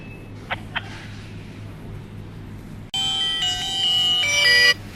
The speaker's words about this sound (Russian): Сейчас, секундочку, там мне вторая линия звонит, зам начальника батальона Захара